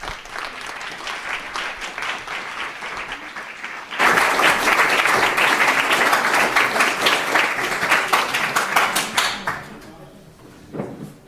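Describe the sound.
Audience applause welcoming a speaker at a talk on predictive policing erupts suddenly after a low murmur, dense loud clapping that holds for several seconds before thinning and fading.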